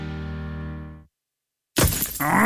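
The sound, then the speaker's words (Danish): A car windscreen cracks from a stone chip: a sudden loud, harsh glass crack and shatter bursts in and carries on to the end, after a sustained musical tone fades away into a moment of silence. “Et stenslag! Det skal du få fikset. For en skadet rude revner let, når det er koldt.”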